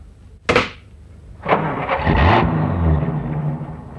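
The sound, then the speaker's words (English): A taxi cab driving away along a roadway: two sharp bursts are followed by a steady engine rumble with a low, wavering tone that carries to the end. “You can imagine how I felt, standing there in the roadway watching my cab drive away.”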